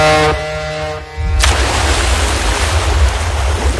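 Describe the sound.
Diving into the sea: a short humming tone fades, then a sudden surge of broad, rushing water and wave noise takes over and washes on steadily.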